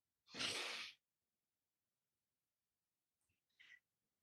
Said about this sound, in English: Okay, deep breath. Okay. Anyone else needs a deep breath?